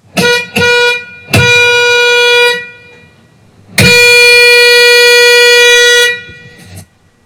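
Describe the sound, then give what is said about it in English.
A bus horn sounds as a few short toots and then two long, steady blasts, loud and brassy, ending with a brief final toot. “I'll ring the bus horn, we'll put our hands in the air, and when we can't hear it anymore, we'll put our hands down, and then we'll see what stories come. Here we go. Here's the horn.”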